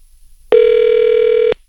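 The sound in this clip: A single electronic telephone ring, heard while calling through to a hotel room, sounds as one steady, buzzy tone of even pitch lasting about a second, alone between stretches of near silence.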